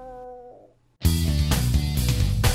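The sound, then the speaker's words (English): A voice imitates a cat in heat yowling for a mate: a faint tonal note fades out, then a loud, harsh, sustained caterwaul with wavering harmonics runs from about one second to the end. “What is that sound? My cat's in heat. What? She wants to have kittens. She's calling for a mate.”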